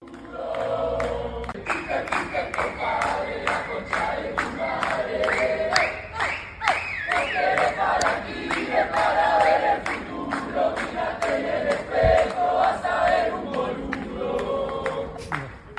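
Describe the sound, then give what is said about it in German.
A crowd of protesters shouts and chants at a demonstration in Argentina outside an entrepreneur's new residence, a loud, continuous mass of voices over steady, rhythmic percussive beats. “in Argentinien gab es eine Gandalf-Demo vor dem neuen Wohnsitz von Peter Thiel”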